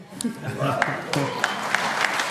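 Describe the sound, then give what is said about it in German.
Scattered audience applause in a quick-answer quiz segment: faint clapping with a few sharp individual claps standing out, alongside talk. “Gib einen Applaus von mir auch.”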